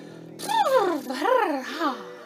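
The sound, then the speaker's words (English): A loose voiced lip trill as the lips blubber during a full-body shake in a yoga class. It makes a soft fluttering buzz whose pitch swoops up and down in a few waves. “Give your whole body a shake. Blubber out the lips.”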